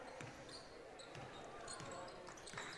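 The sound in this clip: A basketball dribbled on the court during a women's basketball game, with a few sparse, faint bounces under a constant murmur of crowd noise.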